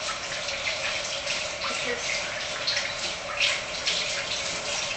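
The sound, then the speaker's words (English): Tap water runs steadily at a sink as hands are washed during kitchen cooking, making a continuous bright hiss with small splashy flutters throughout. “Okay, now I'm done. I'm going to wash my hands.”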